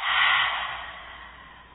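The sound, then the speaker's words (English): A slow, deep breath during a guided breathing exercise, heard as a soft airy rush that swells at first and then gradually fades, with no talk over it. “One more time, deep breath in and out.”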